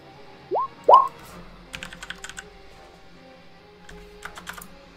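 Typing on a computer keyboard that keeps failing: two quick clusters of faint keystroke clicks, with two short rising tonal blips before them.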